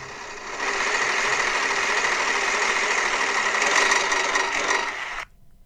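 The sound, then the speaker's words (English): Rapid, dense clicking of a spinning prize wheel used to pick a topic runs steadily at a constant loudness for about five seconds, then cuts off abruptly. No voices are heard over it. “So let's go up to the Wheel of Misfortune. So hold your breath, because this could be a doozy.”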